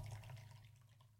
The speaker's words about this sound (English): you guys, I don't know if you can hear, but that is my carafe. I fucking finally did it. No more reheating my coffee, pouring hot coffee into the carafe.